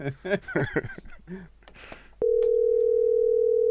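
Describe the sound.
A steady, unbroken telephone tone sounds while someone calls a person back after she hung up. Brief speech comes first, then the loud tone starts abruptly and holds at one pitch to the end.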